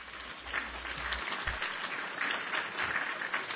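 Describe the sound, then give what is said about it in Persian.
Applause sound effect: a muffled, even wash of many hands clapping that runs steadily for a few seconds, quiet, with no voices over it. “خب حالا مثلا تشویق”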